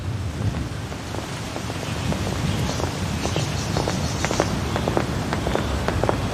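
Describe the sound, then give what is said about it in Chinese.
Strong wind blowing, a steady low rumbling roar that buffets the microphone throughout, with no one speaking. “这风可够大的。”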